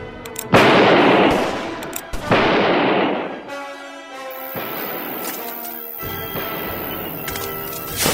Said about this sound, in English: He's slinging a lot of lead, but he's shooting high.